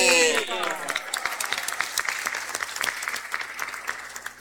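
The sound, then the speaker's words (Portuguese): Applause from an audience hailing Our Lady of La Salette before an evening blessing: a dense, steady patter of clapping hands that holds loud and even for about four seconds. “Saudemos nossa mãe com uma salva de palma forte, bonita.”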